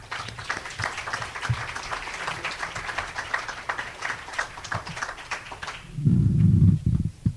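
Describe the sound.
An audience applauds to welcome a speaker at a talk. Steady, moderately loud clapping from many hands continues and then dies away near the end.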